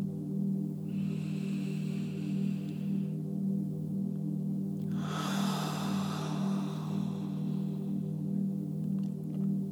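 A slow, deep breath made of two soft, airy sounds a few seconds apart. It rests over a steady, low, humming musical drone that continues throughout.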